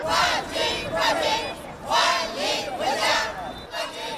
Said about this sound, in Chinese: 等候已久的市民拉起横幅，挥舞小旗，齐声高喊欢迎口号，欢呼声顺着街道一路回荡。